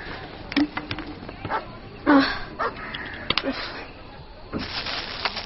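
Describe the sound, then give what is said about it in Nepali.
A dog barks, giving a few short, sharp barks at irregular intervals over a low, steady background noise. “Rosin त पहिला रुममा गइहाल्छ अनि यो भुक्नु बन्द गर्छ”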